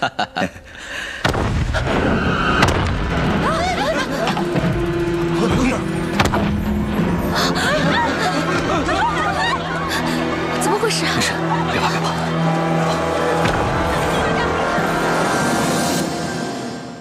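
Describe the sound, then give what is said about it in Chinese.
Artillery shells explode in many sharp, booming blasts over a constant low rumble, while people exchange a few anxious words. “哎，炮弹，这是炮弹的声音。”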